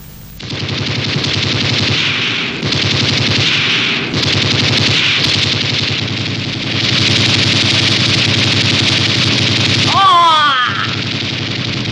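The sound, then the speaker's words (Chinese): Loud, sustained machine gun fire during a battle: dense, unbroken bursts of rapid shots that carry on throughout, with a brief voice rising near the end. “你为什么开枪？”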